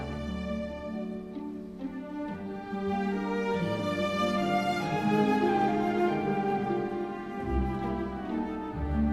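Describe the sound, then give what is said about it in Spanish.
Gabriel Fauré's Sicilienne from his music for the play Pelléas et Mélisande: a gentle, lilting melody over sustained harmonies, playing alone without talk. “Y llego a Gabriel Fauré, que es otro compositor, pues de estos que no, a lo mejor no es tan conocido, pero que tiene cosas tan bonitas y tan conocidas como estas. Y estamos escuchando música hecha para la obra de teatro Peleas y Melisande, es una siciliana que suena así de bonita.”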